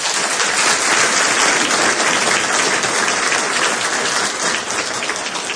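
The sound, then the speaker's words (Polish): Warm applause from a conference audience greeting a law school dean. Loud, dense clapping is sustained throughout and eases slightly near the end. “chcemy ich też gorąco oklaskać”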